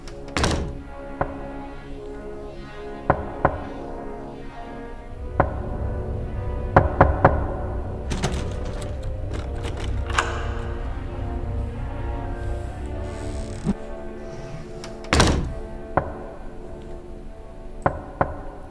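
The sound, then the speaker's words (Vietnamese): Knocking from inside a coffin late at night: dull wooden thuds sound alone and intermittently, in irregular clusters separated by pauses. “Trong cái đêm khuya vắng ấy, cái tiếng gõ ấy nó ám ảnh vô cùng. Nó cứ vang lên dứt quãng, dứt quãng.”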